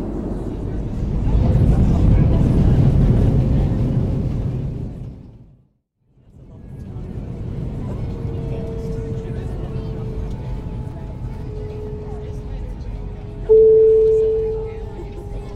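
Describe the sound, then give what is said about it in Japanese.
An airplane is landing, heard from inside the cabin as a loud, low roar that fades away to near silence. A steadier rumble with a whining tone then returns, ending in a sudden louder burst. “ただいま着陸いたしました。”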